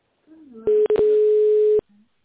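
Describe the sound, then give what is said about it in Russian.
Telephone tone during tone-mode dialing: a steady mid-pitched beep of about one second, broken by a couple of short clicks, with brief faint voice fragments just before and after. “В тоновом режиме наберите нужный номер абонента или дождитесь ответа секретаря.”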